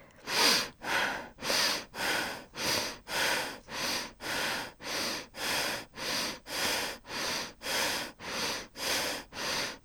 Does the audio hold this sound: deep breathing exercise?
yes